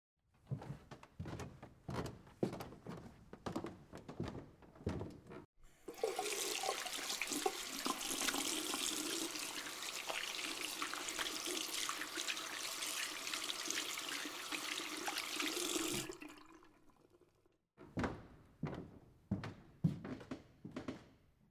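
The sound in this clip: Running tap water at a sink while hands are washed: a steady, even rush lasting about eleven seconds, with faint clicks and knocks before and after it.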